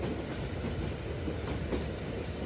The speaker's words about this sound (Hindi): तेरी चलती ट्रेन है बे ऑब्वियसली मोशन के कारण अपने शरीर को झूलता महसूस कर रही है तू